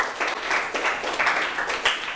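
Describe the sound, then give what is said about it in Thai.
Brief burst of applause from students in a classroom, clapping for a classmate who gave a correct math answer. The clapping is dense and uneven, fairly loud, and continues for the whole short stretch. “ถูกต้องนะครับปรบมือให้เพื่อนหน่อยครับ”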